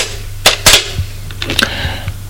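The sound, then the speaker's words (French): A telephone number is dialed, heard as a quick, uneven run of sharp clicks and knocks of varying strength, fairly loud and with no talk. “Elle prend le téléphone, fait un numéro.”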